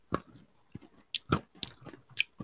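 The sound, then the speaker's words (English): Crunching on a throat lozenge: several quiet, sharp cracks and crunches with softer chewing between them, in an uneven rhythm and with no talk. “I was crunching on a throat lozenge. Yeah, I can hear you crunching on something.”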